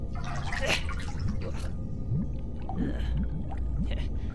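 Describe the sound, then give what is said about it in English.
Hands are washed with water, giving soft sloshing and a series of small gurgling drips and splashes over a low continuous wash, fairly quiet throughout. “I just wash my hands.”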